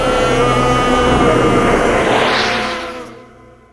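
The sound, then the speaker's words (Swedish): A machine-like transformation effect of turning gears and a shaking room: a loud, steady roaring rumble swells into a rising whoosh near the end, then fades away. “Nu är den igång, transformationen! Och växlarna vrider sig och rummet skakar!”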